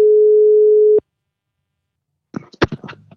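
Telephone tone heard while placing a call: a steady single-pitched tone holds for about a second and cuts off, then after a silent pause a few clicks and brief noises come on the line.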